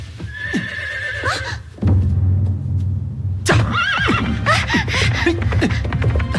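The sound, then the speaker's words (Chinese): A horse whinnying, then hooves pounding as a Xiongnu cavalryman with bound hands gallops away on it. Further neighs rise over the hoofbeats. “骑兵虽然双手被绑着，依然利落地上了马，纵马向远处狂奔。”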